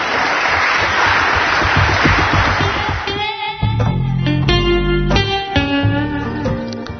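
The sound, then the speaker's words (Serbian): Applause in a Serbian political setting after the prime minister's remarks: a dense, loud wash of clapping for about three seconds, then music with sustained tones and low notes takes over. “Aplauz je tu”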